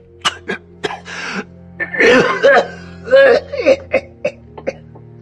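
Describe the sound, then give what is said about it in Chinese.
A badly injured man has a heavy coughing fit and coughs up blood. Harsh, gasping coughs come in a rapid, uneven series of many bursts over a steady low drone. “说完这一大堆话，已经是有些喘不上气了，狠狠的咳了一阵，咳出一大口血才喘上气来呀”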